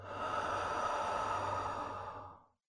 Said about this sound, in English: Take a slow, deep breath in through the nose and let it out through your mouth.